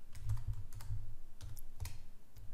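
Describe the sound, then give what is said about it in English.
Someone types a message on a computer keyboard, producing many quick, light key clicks in rapid bursts separated by brief pauses. “So I will change the username here to Daniel and click send. Now I will type the same message.”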